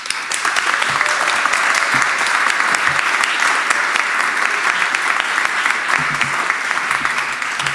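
Audience applause welcoming a performer onto a stage: dense, steady clapping from a large crowd that stays loud and even for the full eight seconds.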